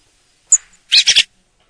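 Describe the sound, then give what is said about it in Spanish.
A bird call: one short, high chirp, then a quick run of three raspy, buzzy notes, clear and alone against silence. “Vamos a escuchar de nuevo el pájaro que hemos elegido en el día de hoy. Ese sonido vamos a tener todas las semanas. Este es el pájaro”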